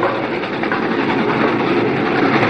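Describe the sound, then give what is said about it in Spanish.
A train runs on rails, heard from the rear platform of its last carriage: a loud, continuous, dense rumble and rattle with faint clatter and no voices. “Hanley y Blythe salen a la plataforma del último vagón. ¿Hay policía en el tren?”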